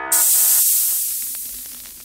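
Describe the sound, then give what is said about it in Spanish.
Spaceship hatches opening with a sudden loud pressurized hiss that starts abruptly and fades gradually over about two seconds. “Pueden bajar de la nave, abriendo compuertas.”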